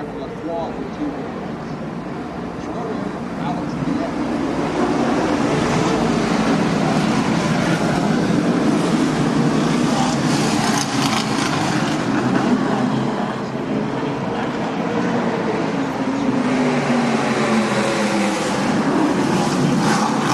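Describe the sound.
Racing cars on a practice lap at a circuit, near the corner by Princess Gate, make a continuous, steady engine roar that swells slightly after the first few seconds and holds without a break.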